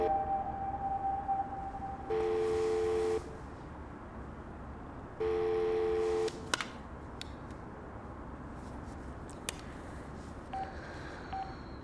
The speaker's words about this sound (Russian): Я только бабушке еще позвоню.